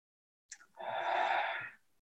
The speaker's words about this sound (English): Go ahead and take one more deep breath.